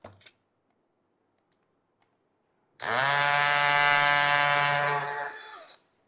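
Screws are fitted and tightened on a camera mount. After a couple of faint clicks, a loud, steady, buzzing motor whir runs for about three seconds and then stops, with quiet on either side.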